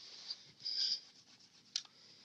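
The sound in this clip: Faint scratches and squeaks of a number being written on a board during a live party game: a few short strokes and one longer squeak, quiet and with no talk.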